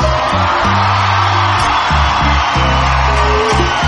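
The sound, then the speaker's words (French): An audience cheering and whooping at a live event, loud massed shouts and yells sustained without a break for about four seconds. “Un maximum de bruit pour Monsieur Opus Mix.”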